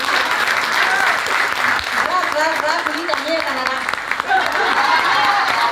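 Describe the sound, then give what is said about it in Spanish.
An audience at a community pageant applauds a candidate with loud, steady clapping. The dense patter runs throughout, and voices rise over it partway through. “Muy bien, un aplauso.”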